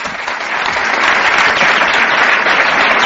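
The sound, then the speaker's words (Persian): Loud, dense audience applause at a meeting, clapping in honour of an engineer. The many hands form a steady, even roar that holds at full strength for about three seconds without a break. “به افتخار ایشون دست بزنید”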